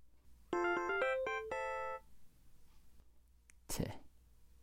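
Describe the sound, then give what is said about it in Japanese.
A LINE app message notification on a phone: a bright electronic chime of several quick notes lasting about a second and a half, followed after a pause by a brief rustling noise. “LINE は昨日の男からじゃん。”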